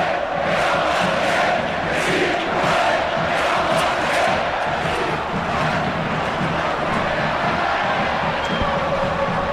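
A football crowd at La Rosaleda stadium in Málaga cheers as the whole stand rises in an ovation for a player. The roar stays loud and unbroken throughout.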